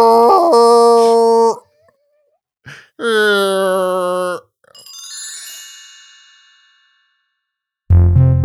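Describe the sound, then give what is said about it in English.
Whale call sound effect: long tonal moans rich in harmonics, two held calls followed by a sweeping, fading call, loud and with no other sound beneath. “I'm going to pop off a whale sound real quick”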